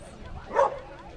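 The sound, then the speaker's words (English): A single short bark from a Kelpie, the Australian working dog breed, at a festival in Casterton. It rises briefly above steady background talk. “It's an Australian working dog that's unique to this country. And here in Casterton, it's the home of the Kelpie.”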